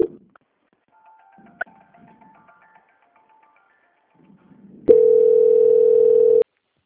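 A steady telephone line tone sounds while a call is being transferred. It holds one pitch, loud and level, for about a second and a half, then cuts off abruptly. Faint clicks and soft line noise come before it.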